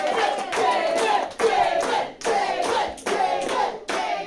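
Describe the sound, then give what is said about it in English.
A studio audience chants a welcome for a guest while clapping together, the loud group bursts repeating in a steady rhythm with brief pauses between phrases. “A welcoming chant for someone they have yet to meet. This audience is amazing.”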